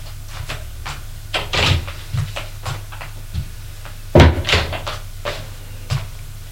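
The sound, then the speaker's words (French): A sideboard drawer is opened to take out a key, giving many light knocks, thunks and rattles with two louder clusters near the start and middle, over a steady low hum. “va prendre la clé dans le tiroir du buffet”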